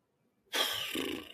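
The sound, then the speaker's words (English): A single deep breath: after a moment of near silence, a soft, airy rush of breath starts abruptly and carries on steadily for under a second before easing. “Yeah, that deep breath was good.”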